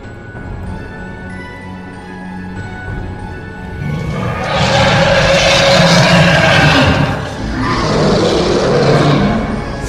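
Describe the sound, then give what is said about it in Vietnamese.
A white tiger's roar as a sound effect: after a quieter start, a deep, loud, broad roar swells in and holds for several seconds, dips briefly, then roars again. “Một hư ảnh bạch hổ ngửa mặt lên trời mà gầm thét đầy uy phong.”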